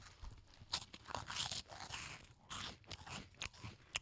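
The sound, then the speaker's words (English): Crunching of cheese curl snacks being chewed, with many dry, crisp bites and crackles following in an irregular rhythm, faint and without any talk. “People love hearing us eat.”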